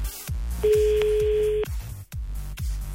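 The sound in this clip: A single steady ringback tone from an outgoing phone call, placed during a call-in game offering to refund a listener's bill. It sounds for about a second over a loud, beat-driven music bed.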